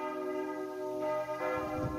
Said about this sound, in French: le départ pour Compostelle à partir du puits en Velay sous les cloches de la cathédrale.